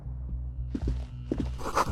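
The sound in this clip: Footsteps walk across a building floor, a few soft, low thuds in an uneven rhythm over a faint steady hum, quiet throughout and with no talking.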